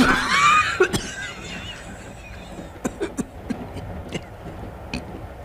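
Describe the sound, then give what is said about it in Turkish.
Choking coughs from a man acting as if something is stuck in his throat: a strained, voiced gasp opens, then several short, sharp coughs at irregular intervals, fading in strength. “sanki, sanki aniden boğazıma bir şey tıkandı.”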